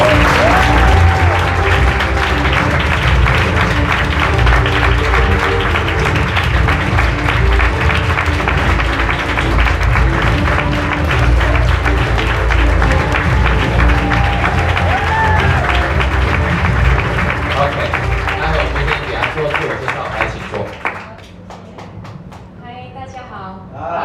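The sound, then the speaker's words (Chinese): Dense audience applause welcomes a speaker at a nutrition versus medicine forum talk, loud and steady for about twenty seconds before quickly dying away near the end. “我们以最热烈的掌声欢迎我们的慧琴姐”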